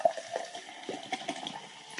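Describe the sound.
Seltzer water being poured or opened, a faint, steady fizzing hiss of liquid with soft bubbling pops scattered through it.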